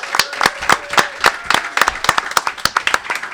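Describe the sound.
Audience applause welcoming a guest, made of distinct individual claps in a quick, uneven patter at a steady, moderate level.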